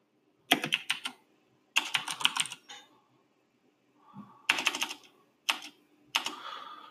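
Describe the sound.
Typing on a computer keyboard while entering a character's coat of arms as text: rapid, crisp keystroke clatter in several short bursts separated by brief silences.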